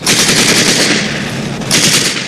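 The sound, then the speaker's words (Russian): Rapid automatic gunfire aimed at German soldiers trying to cross a ford in a wartime film scene: a loud, dense, unbroken rattle that eases slightly midway and then surges again toward the end. “Немцы пытаются перейти брод, Женя стреляет в них.”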